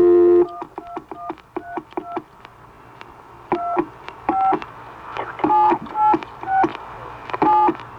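A telephone number is dialed on a touch-tone phone, a redial after a wrong number. Many short, crisp beeps of varying pitch come in uneven bursts with small gaps between groups.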